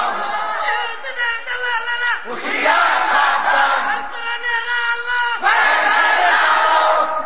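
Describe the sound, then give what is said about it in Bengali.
A large crowd at a religious rally shouts back in unison, loud, raw collective yells that surge in waves, with fresh swells of shouting breaking out between sustained chanted cries. “ও আমার জাতি চিৎকার মেরে বলো তারা মুসলমান না কাফের”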